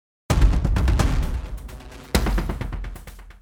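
Two heavy, booming impacts from a Damage 2 sound-design effect from the Boom Library, each followed by a crackling, rumbling decay that fades before the second hit lands.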